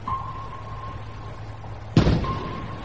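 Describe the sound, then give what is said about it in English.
A single sharp blast from a naval gun fired over a U-boat's conning tower, bursting suddenly out of a steady low hum and trailing off into a short rumbling decay. “Fire a shot over his conning tower as close as you like.”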